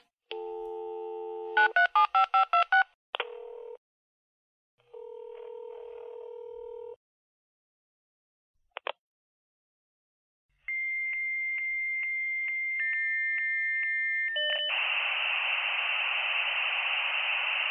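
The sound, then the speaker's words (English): A dial-up modem connects to another modem: a dial tone, a rapid run of dialing beeps, then separate electronic tones and chirps, ending in sustained high tones and a loud hissing screech that continues to the end. “Yep, that's the sound of a dial-up modem making a connection with another modem.”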